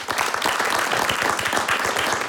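Concert audience applauding a band: a continuous, dense wash of many hands clapping, steady in level throughout with no voices standing out.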